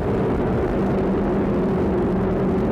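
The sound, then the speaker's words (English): A rocket lifts off carrying a weather satellite, GOES-R, heard as a deep, steady, continuous roar and rumble that holds loud and unchanging throughout, with no voices. “And liftoff of NOAA's GOES-R, America's most advanced weather eye in the sky, elevating environmental intelligence to new heights and saving lives.”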